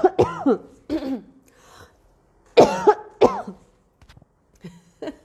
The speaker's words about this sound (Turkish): Tükürüm boğazıma takıldı.